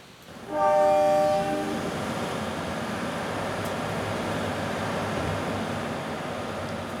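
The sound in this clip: A train horn blares at a train station, a loud, sustained tonal blast that comes in suddenly and then eases into the steady rumble of the train.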